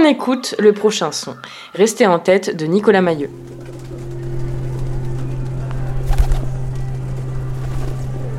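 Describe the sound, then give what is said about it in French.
Low, throaty cooing of pigeons in a city, heard with people talking and followed by a steady low hum. “Les pigeons, ça fait partie des villes.”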